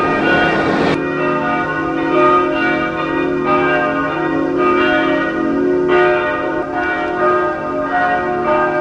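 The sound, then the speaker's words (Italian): Church bells ring out at a multireligious site near a checkpoint, opening with a loud clang, then several further strikes sounding over a steady, rich, resonant hum that keeps ringing throughout. “E risuonano le campane a ricordare la multireligiosità di questo luogo.”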